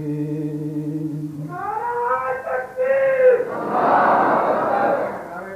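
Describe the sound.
During a recital of mystical devotional poetry, a sustained sung voice gives way to a sudden loud burst of many voices shouting together. The shouting holds for a couple of seconds before easing off.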